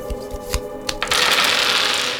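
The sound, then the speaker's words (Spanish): Playing cards being laid out for a card reading, with a few sharp snaps as cards are placed, then a steady, fairly loud papery riffling rustle through the rest. “Quiero que me digan las cartas. En este momento las estoy tirando.”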